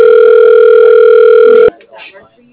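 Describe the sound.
A steady telephone tone plays while waiting on hold for a customer service line to answer. It is one loud, unbroken tone that holds for nearly two seconds and then cuts off abruptly, leaving only faint low noise.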